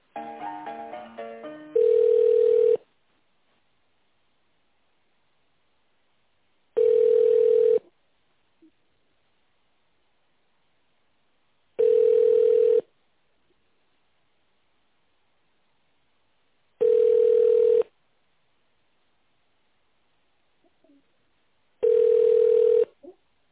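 Telephone ringback tone sounds while a business call is being transferred: five steady, mid-pitched tone bursts of about a second each, spaced by roughly four seconds of silence, after a brief cluster of other tones at the start.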